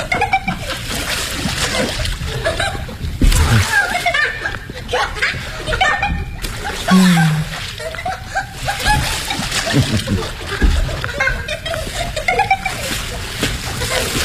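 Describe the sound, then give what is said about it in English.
Water splashes and sloshes as someone swims, in irregular bursts through the whole stretch, mixed with talk and chuckling laughter. “Come on in, darling. Show me how you can swim. That's it. Very good.”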